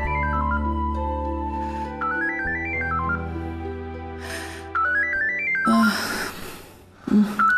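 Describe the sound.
A telephone rings with a melodic tune of quick stepping electronic notes, repeated a few times over sustained background tones. Short bursts of breathy noise come near the end.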